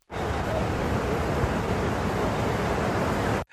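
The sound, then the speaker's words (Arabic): Surf on an Atlantic beach near Asilah, Morocco, a steady broad wash of waves and wind that holds at an even level for several seconds with no distinct voices. “عائلات تحت مظلات، أطفال صغار يمرحون في مياه المحيط الأطلسي، وشباب يخوضون مباراة حامية الوطيس على الشاطئ الرملي.”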